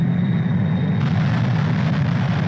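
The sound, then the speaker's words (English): A Vickers Valiant jet bomber flies over Maralinga, its engines giving a steady, heavy, low roar with a broad rushing hiss above it, continuous and unchanging throughout, with no talk. “The Valiant, as we know, is one of Britain's A-bombers. And here's one winging away over Maralinga to drop another device”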